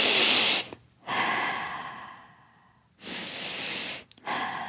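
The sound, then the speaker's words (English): Deep breathing in and out, with loud, airy breaths alone and no talk. Slow rushing inhales and exhales alternate in a few long strokes, separated by short quiet pauses. “they could just be breathing in and out for three counts, or just deep breaths.”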